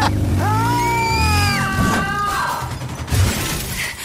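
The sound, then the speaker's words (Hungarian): A motorcycle engine revving loudly: a tonal, whining roar that climbs, holds and then drops away, with a crashing clatter near the end. “Nagyon jól áll neked ez a motor, tudod, egy le, négy fel.”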